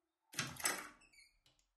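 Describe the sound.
A door being opened gives a quiet, breathy rush of friction followed by a few faint clicks, heard alone without any voices.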